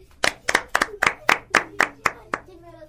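Children clap their hands together nine times in an even, steady rhythm. Each clap is crisp and sharp, and the claps are spaced evenly from start to finish.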